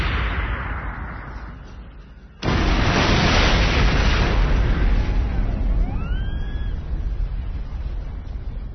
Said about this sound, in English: Kenobi, his dragon mount, and all five of the destroyer droids he'd been fighting vanished in a fireball that for an instant outshone Utapau's sun.